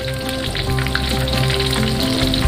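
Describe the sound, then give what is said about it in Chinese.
Stuffed lion's head pork meatballs fry in a pan of hot oil, browning to a golden surface. A steady, dense sizzle and crackle continues unbroken throughout, with no voices. “夹心狮子头先在油锅中定型，表面变成金黄色后，就要放到汤里小火慢煨两小时。”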